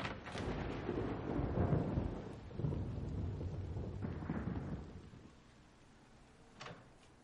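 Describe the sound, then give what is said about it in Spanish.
Thunder from lightning under a cloudy sky rolls as a loud, deep rumble during a storm. It holds for about five seconds, then fades to a quieter tail. “Varios relámpagos caen bajo un cielo cubierto de nubes.”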